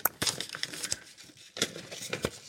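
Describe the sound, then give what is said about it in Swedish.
Dry paper rustling and tearing as an envelope is drawn and opened: a few sharp crackly bursts with brief quieter gaps between them, and no voices. “Drar du ett kuvert?”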